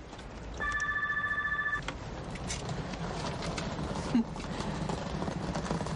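A mobile phone ringtone sounds on a street outside a building entrance: one burst of steady, bright electronic tones lasting about a second, over continuous street background noise, followed later by a single short thump.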